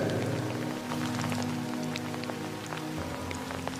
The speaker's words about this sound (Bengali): চারিপাশ ঘুটঘুটে অন্ধকার সঙ্গে বৃষ্টি কিচ্ছু দেখা যাচ্ছে না